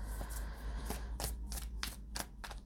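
Tarot cards being shuffled, giving a series of about seven crisp, papery riffling bursts at an uneven rhythm over a steady low hum.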